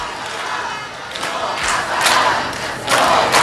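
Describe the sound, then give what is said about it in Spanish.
A crowd cheers and shouts to greet someone's arrival, a steady, dense roar of voices with several louder swells of cheering rising out of it. “Alguien llega y le están jaleando.”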